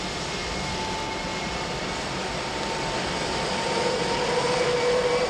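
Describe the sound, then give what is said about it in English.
Airliner propeller engines roar in a steady, dense drone as they are started one after another, the sound swelling louder near the end as another engine seems to join in. “As the passengers are comfortably seated, they can hear the plane motors as they are each one fired in order.”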